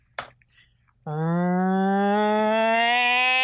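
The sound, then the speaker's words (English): A cow moo serves as a spoiler-horn sound effect: one long, loud lowing call whose pitch rises slowly. It starts after a faint click and a short quiet gap and holds to the end. “Sound a spoiler horn.”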